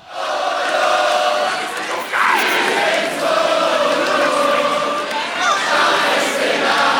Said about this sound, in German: Applaus.